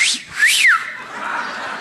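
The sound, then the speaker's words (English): A two-part wolf whistle from a talking parrot that whistles at women: a short rising note, then a longer high note that sweeps up and falls away, fairly loud over faint background noise. “I have a talking parrot that will whistle at women.”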